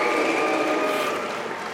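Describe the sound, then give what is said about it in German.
Audience booing a speaker as he steps up to a lectern, a sustained, dense roar of many voices that eases slightly toward the end. “Ein sichtlich angefasster Wolfram Weimar wird ausgebuht, als er ans Rednerpult tritt.”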